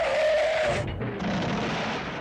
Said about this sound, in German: Sehen Sie, ich habe so fies gebremst, dass der hinter mir aufgefahren ist.